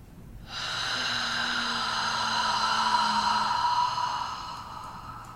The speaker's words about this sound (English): One more big breath in from the root all the way up.